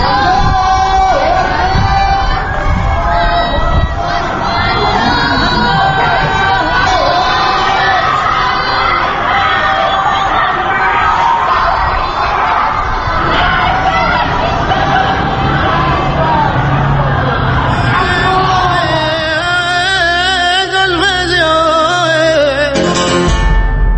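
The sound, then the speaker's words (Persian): Protest crowd shouting at night in Iran: a dense, steady mass of many raised voices and yells. It stays loud throughout, and the texture changes toward the end. “ساعت 10 شب به وقت ایران و این صدای اعتراض همچنان به گوش می‌رسد.”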